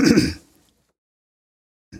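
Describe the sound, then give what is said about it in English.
A single short throat clearing, a rough burst of low grunting noise alone at the start, followed by silence and a faint brief sound at the very end. “I just cleared my throat. I think I fixed the problem with my voice.”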